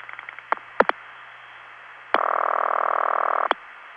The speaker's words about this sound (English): 7 digits from White Plains to Cheyenne, which sends 7 digits to Casper, which dial pulses 4 digits to the step.